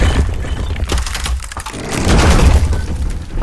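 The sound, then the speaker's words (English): Breaking and smashing destruction sound effect: loud, continuous crashing and cracking with crunchy, shatter-like debris and low thuds, swelling heavier in the second half. “The ultimate sound design toolkit for complete destruction. Ripping. Breaking.”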